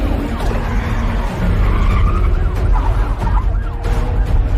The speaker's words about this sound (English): He brakes before an archway too narrow for the car, then round a long curve.